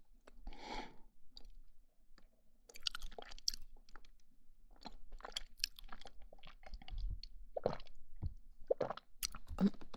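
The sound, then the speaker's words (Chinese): Close-miked eating with a drink being swallowed: many soft, wet crunches, squishes and smacks at irregular intervals, quiet and alone with no talk. “真的觉得这个麦克风录吃东西的声音好听，包括这种喝水的吞咽的声音。”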